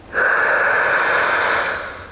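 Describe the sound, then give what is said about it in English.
A single long, deep breath, loud and airy, with a steady rushing sound that swells quickly and fades gently at the end. No voices are heard. “Big breath. And out. Big breath. And out.”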